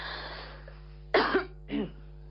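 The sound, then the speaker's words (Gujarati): Two short, sharp coughs from a person with an irritated throat, the first stronger than the second, standing out against a quiet background with a low steady hum. “મને થોડી ગરામાં ખાંસી થતી છે”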